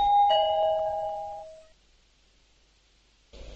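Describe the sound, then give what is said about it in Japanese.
A doorbell chime rings at a house's front door, a bright electronic tone that sounds and fades out over about a second and a half, leaving silence before a faint noise at the end. “玄関のチャイムを鳴らします。”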